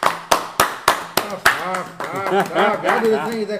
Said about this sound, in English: So we gotta give the biggest applause to him right now.